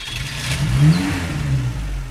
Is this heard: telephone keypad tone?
no